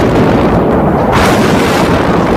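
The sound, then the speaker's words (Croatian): An artillery shell explodes about 30 metres away on a street in wartime besieged Sarajevo, a loud, dense roar and rumble that fills the whole clip without pause or talk. “Evo, sada je pala na granata, na možda 30 metara od nas.”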